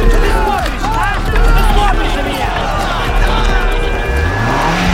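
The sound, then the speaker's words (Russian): Engine of a car fitted with a welded metal bull bar driving up, its low note rising toward the end, under a loud crowd hubbub with shouting voices as people push toward a fence. “Сзади появляется машина Артема”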